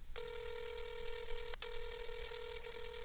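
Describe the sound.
Telephone ringing tone as a man places a call to his wife, a steady electronic tone that cuts out briefly once and then resumes.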